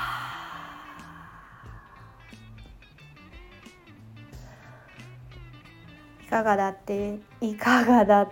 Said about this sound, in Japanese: 吐いて、ラスト吸って、全部吐き切ります。